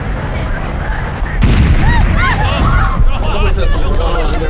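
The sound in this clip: An artillery barrage booming during a military exercise, a deep continuous rumble of explosions that starts partway in and builds under loud crowd chatter and voices.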